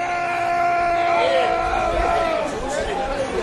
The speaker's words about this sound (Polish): tu właśnie mieliśmy przed chwilą, słyszeli Państwo, mieliśmy jednego pana po 30 ładnie krzyczał